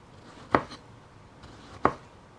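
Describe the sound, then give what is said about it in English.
A knife slices through tomatoes in two crisp, separate strokes about a second apart, with quiet in between. “So you can slice some tomatoes.”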